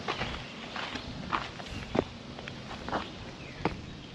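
Footsteps of someone walking and climbing onto a big rock outdoors: several irregular, soft steps with scuffing, spaced unevenly. The steps are fairly faint, with no talking.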